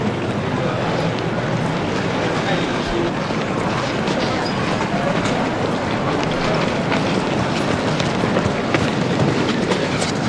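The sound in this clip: A train passing through a railway station, heard as a loud, continuous rumbling roar that stays steady throughout, with faint rhythmic clatter mixed in.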